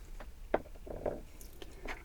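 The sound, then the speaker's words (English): Liquid glitter being dabbed on during backstage idol makeup, making soft wet squishes and a few light, sticky taps over faint background hiss. “to do some glitters. So just use this liquid glitter”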